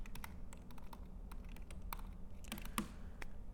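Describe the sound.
Quiet, rapid typing on a computer keyboard while writing code, many irregular light key clicks with one slightly sharper tap near the end.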